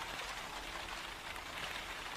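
Soft, even hiss of rain falling outside, a continuous faint patter with no distinct single drops and no voices.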